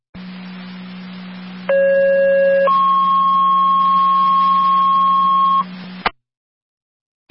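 Radio dispatch paging tones alert advanced life support paramedic units: a short lower steady tone, then a longer higher tone over a constant low hum, before the signal cuts off abruptly.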